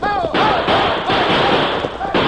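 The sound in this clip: Gunshots fired to stampede a cattle herd: several sharp, loud cracks burst out over a continuous noisy din while a man shouts.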